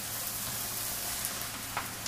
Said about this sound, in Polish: Już słychać, jak tam cebula zaczyna się przypiekać, więc myślę, że to jest odpowiednia pora, żeby ją zdjąć z ognia